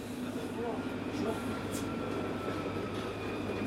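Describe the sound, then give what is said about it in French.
A TGV train arrives at Paris-Montparnasse station with a steady, even rumble and a low drone, with faint tonal hums held over the top the whole way through. “Mesdames, Messieurs, dans quelques instants, nous arrivons en gare de Paris-Montparnasse, terminus de ce TGV.”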